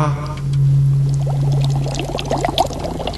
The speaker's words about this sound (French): l'eau se met à bouillir. Est-ce que c'est normal? Ce n'est pas normal.